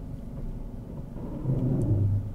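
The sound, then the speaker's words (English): A car's brakes groan as they release while it moves forward and then reverses. The low droning moan rises out of a steady engine rumble near the end. “Now, there I heard what we call brake groan. Mm-hmm. Which, as they lift off. Yes. Yeah. As you lift off the brakes and go forward and back.”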